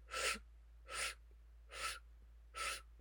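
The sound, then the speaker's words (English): Four sharp, rhythmic inhales drawn through pursed lips, like sucking a thick milkshake through a straw, in a yogic breathing exercise for pranic energy; each is a hissy, airy draw, evenly spaced, with quiet pauses between. “the breath is going to be this rhythmic inhale through pursed lips. So kind of like you're sucking in a thick milkshake through your straw. So that breath will sound like this.”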